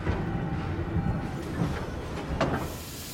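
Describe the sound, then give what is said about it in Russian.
A railway flatcar camouflaged with branches rolls along rails, a quiet low rumble broken by a few soft, evenly spaced knocks. “По рельсам движется замаскированная ветками платформа.”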